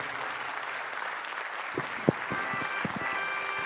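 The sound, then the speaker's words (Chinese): Audience applause at the opening of a television talk show: a steady, dense wash of clapping that holds a fairly even level throughout, with a few sharper, louder claps standing out near the middle. “感谢大家满满的掌声”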